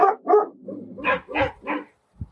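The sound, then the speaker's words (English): Dogs bark at horse riders trotting past without saddles, a run of about seven sharp, mid-pitched woofs in an uneven rhythm, some louder and some softer, with a short pause before a final quieter bark. “set all the dogs off again.”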